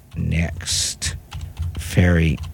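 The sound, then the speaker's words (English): Typing on a computer keyboard, re-entering a website address in a browser, as quick light clicks run under a person talking. “And then I'm going to type it again.”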